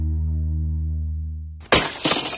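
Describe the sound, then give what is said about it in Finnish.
A car windshield shatters: a steady low tonal hum runs alone, then cuts off and a sudden loud crash of breaking glass bursts out, followed by bright crackling and tinkling fragments. “Tuulilasi rikki”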